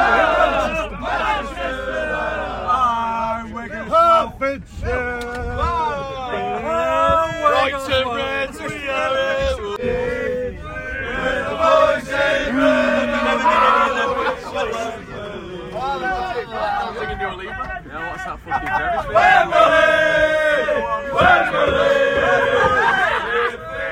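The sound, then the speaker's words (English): Manchester United football fans chant loudly together on the way to Wembley after coming off the M1, a rhythmic crowd roar of many voices with cheers and shouting throughout. “coming off the M1. You can hear everyone talking away. It's been made trending by social media. Manchester! Manchester!”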